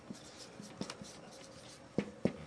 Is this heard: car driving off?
no